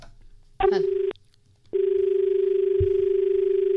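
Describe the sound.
A telephone line tone on an incoming call to a farm-advice phone-in programme from Dharwad. A half-second tone is followed by a short break, then a loud, steady, continuous tone runs to the end.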